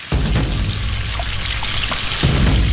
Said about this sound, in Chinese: 待辣椒发黑，加入清水至沸腾